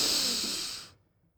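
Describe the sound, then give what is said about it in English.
A single deep breath makes a steady, airy hiss that stays loud for most of a second before fading quickly into silence. “Breathe deeply. And exhale long. Another deep breath in.”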